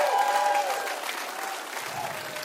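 A church audience applauds and cheers for its Littleton, Lakewood, Arvada and Evergreen locations and the men and women of God Behind Bars, producing a dense wash of clapping that stays strong and slowly eases off.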